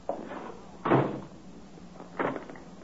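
Door with a push-button lock in its knob being shut, heard as three separate wooden knocks and thumps, the second the loudest, over a quiet background.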